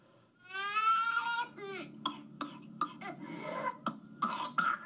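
A 15-month-old toddler with whooping cough cries out in a long, drawn-out wail, then breaks into a run of sharp, strained coughs mixed with whimpers, recorded on a phone video.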